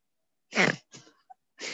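Throat clearing from a man at an awards event: a few rough, breathy bursts, the first loudest and longest, followed by a weaker one and another starting at the end, with a tiny brief click between.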